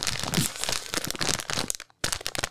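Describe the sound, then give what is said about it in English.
A fresh bag of mint dark chocolate M&M's is torn open, with loud, busy crinkling and crunching of the packaging and a brief gap near the end before more rustling. “He opened this bag. It's a fresh bag.”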